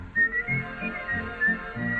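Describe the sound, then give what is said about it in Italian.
Someone whistles a tune in a short melodic phrase of several clear, pure notes with small pitch steps and a bouncy, song-like rhythm. “L'altro dì, nel passeggiare, mi son messo a fischiettare”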